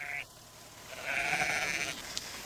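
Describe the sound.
A sheep gives a drawn-out, wavering bleat of moderate loudness over steady background noise.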